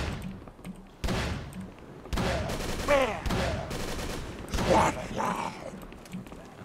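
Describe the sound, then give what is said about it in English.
Gunfire in a shooter video game as enemies spin and shoot: a few sharp, loud bursts of shots with abrupt onsets, mixed with talking over the action. “It's just like spinning around and shooting their guns.”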